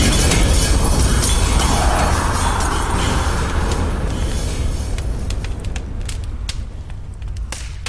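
A heavy explosion roar with deep rumble, loud at first and slowly fading over several seconds, with scattered crackles toward the end.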